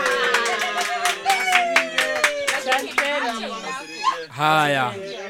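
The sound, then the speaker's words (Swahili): Rhythmic group clapping for a woman who keeps dairy cattle. Many sharp claps are struck roughly in unison, with voices singing or chanting along and continuing after the claps stop. “Naona kweli Mama Pendo anafanya kazi nzuri. Hebu tumpigie makofi.”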